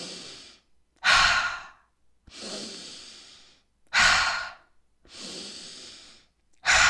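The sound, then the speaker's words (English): Breathing during a breathwork exercise, drawn in through the nose and pushed out through the mouth. About six breaths alternate between loud, rushing ones and softer, longer ones, with no talking. “all you're going to do is you're going to breathe in through the nose, out through the mouth.”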